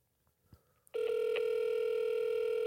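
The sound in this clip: A telephone ringback tone plays on an outgoing call. After a few faint clicks, one steady, clear tone starts and continues unbroken to the end.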